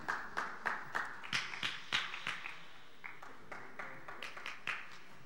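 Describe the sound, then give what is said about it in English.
A church audience clapping their hands together in a steady rhythmic beat, many quick, slightly uneven claps that stay faint and thin out toward the end. “Give a round of applause for all those who helped out yesterday and Friday, those who brought in boxes.”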